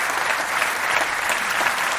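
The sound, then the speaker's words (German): Enthusiastic welcoming applause from a sold-out audience at a comedy show in Mainz. The clapping is dense, loud and steady, with no voices over it. “Vielen Dank für diesen frenetischen, herzlichen Begrüßungsapplaus.”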